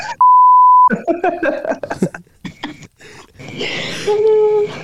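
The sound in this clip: A sustained censor bleep, one steady pure tone at the start, cuts over speech, then people talk and a second brief tone sounds near the end.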